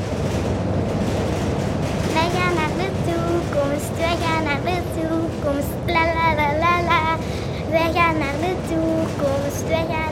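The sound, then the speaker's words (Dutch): Steady, low rumbling engine of a spaceship driving away in a children's story, continuing throughout beneath people talking. “Ik beefde omdat de man het ruimteschip had gestart en ermee wegreed. De dozen trilden.”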